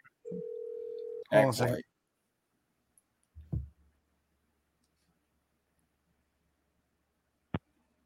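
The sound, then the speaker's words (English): A telephone dial tone sounds as a call is placed, a brief steady tone lasting about a second. A short burst of voice follows, then a couple of faint isolated clicks in near silence. “I'm gonna call back and act like a real customer this time.”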